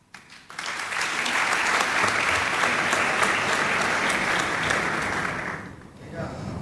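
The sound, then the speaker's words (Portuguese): Audience applause at a live music performance swells quickly into a loud, dense wash of clapping. It holds for about five seconds, then cuts off, and quieter talk follows. “Metade dessas palmas são para o Tiago Torres da Silva.”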